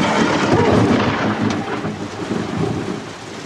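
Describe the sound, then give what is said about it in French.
Thunder from lightning striking close by during a storm at a mountain bivouac inside the cloud. A loud, sustained rumbling roar swells and ebbs, with a steady hiss of rain throughout. “On subit l'orage, là. Il y a des flashs tout autour, là.”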